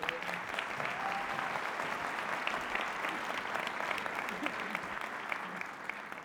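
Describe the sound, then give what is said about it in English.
Sustained applause from the audience at a culinary course, in honour of a sponsor: dense, even clapping that holds steady for several seconds without letting up. “And he really does deserve this round of applause because they sponsor us really also intellectually.”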